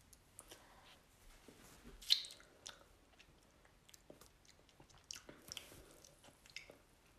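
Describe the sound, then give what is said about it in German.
Faint chewing of a bite from a homemade food bowl: soft, moist mouth sounds with scattered small clicks, one louder click near the middle, and no talking. “Das sieht aus wie so eine richtig geile Fertigbowl. Ich probiere mal.”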